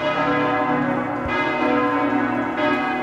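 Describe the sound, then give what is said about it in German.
Wedding bells ringing in a loud, dense wash of overlapping bell tones, with fresh strikes renewing the sustained clang throughout and no voices. “Bei den Hochzeitsglocken, das ist, ne?”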